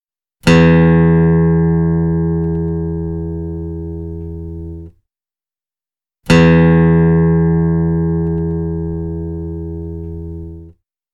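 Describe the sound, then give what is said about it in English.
Guitar low E string plucked twice for tuning, each a loud, deep sustained note that rings for about four seconds and slowly fades before cutting off, with a short silence between the two. “The guitar tuning. First, the deep E string sounds.”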